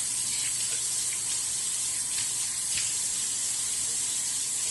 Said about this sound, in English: But right now I'm wiping my sink with some cleansers.